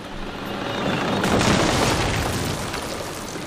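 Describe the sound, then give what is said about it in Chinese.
A landmine blows up under a Sherman tank crossing a minefield. A deep, roaring blast swells to a peak and then rolls on as a long, slowly fading rumble. “我们损失了一辆坦克，它压到了地雷。”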